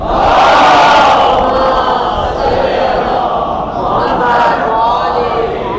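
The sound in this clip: A crowd shouts a religious slogan in unison in response to a speaker's call. The voices are loud and massed, holding steady for several seconds with slight swells and no pause.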